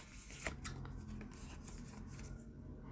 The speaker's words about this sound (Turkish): Ona da bir kart daha seçeceğim.